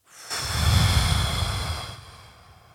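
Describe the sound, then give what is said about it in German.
Slow exhale after holding the breath for four seconds in a breathing exercise: a soft, airy rush of breath that swells quickly, holds steady, then tapers off over about two seconds. “Und dann Atmung halten für vier Sekunden. und ausatmen.”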